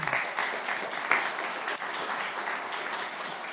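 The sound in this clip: Audience applause welcoming a guest speaker to the stage, a dense, steady wash of many hands clapping that holds at an even level for the whole stretch, with no voices over it.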